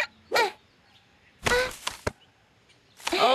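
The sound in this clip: Bottles are knocked over in a throwing game, giving a few sharp, loud clattering bursts spaced apart, one of them a quick run of separate hits, with quiet gaps between.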